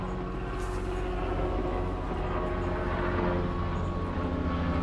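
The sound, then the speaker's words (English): Helicopters flying overhead make a loud, steady droning rumble with a sustained engine hum that stays even throughout, with no other sounds standing out. “It's helicopters, it's all the noise going on.”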